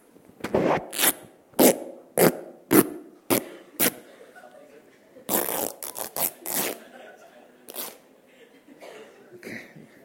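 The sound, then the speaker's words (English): Tearing sounds, a long series of rough, ripping bursts, some short and evenly spaced, then a tighter cluster followed by a few scattered rips, heard alone without talk. “So when we tear, I'm not sure whether you can hear that sound.”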